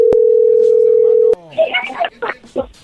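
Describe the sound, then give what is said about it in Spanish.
A steady telephone dial tone plays while a call is being dialed again. The loud, even hum holds for over a second, then cuts off abruptly, and a person starts talking. “Sí, ya colgó, pero ahí se está marcando otra vez.”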